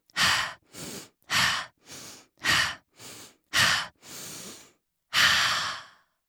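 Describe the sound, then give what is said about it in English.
Deep, calming breathing: a steady series of breaths drawn in and pushed out, with short pauses between them, closing with a longer, fuller exhale after a brief gap. “What if you used breathe 5 times? It goes like this. Breathe 5 times.”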